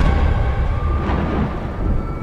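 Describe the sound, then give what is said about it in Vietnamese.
A thunderclap rumbles across the sky as a dense, loud, sustained roar with no distinct sharp crack, holding steady throughout. “Một tiếng sét vang rền khiến cả khung trời chao đảo.”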